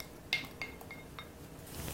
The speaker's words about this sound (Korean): 지난번처럼 이것을 한번 끓일 거예요. 끓이는데, 자, 토마토를 여기다가 냄비에다가 넣으시고,